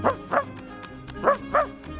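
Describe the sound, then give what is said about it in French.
A dog barks four sharp, loud times in two quick pairs, separated by a brief pause with faint softer yips between. “Oh, tu es un bon chien.”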